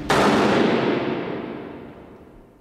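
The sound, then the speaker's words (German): A rifle volley from a firing squad at an execution in a fortress moat, staged as a radio drama effect: one loud, sharp crack of massed shots that rings out and slowly decays over a couple of seconds, with no voices. “in den Festungsgraben, wo der Exekutionspeloton sie erwartete. Dann ging alles sehr schnell. Leg an! Feuer!”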